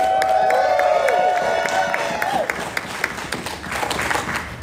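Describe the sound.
Applause and cheering from a live comedy show audience greeting a performer's introduction: a dense, steady wash of clapping and whoops that thins slightly toward the end.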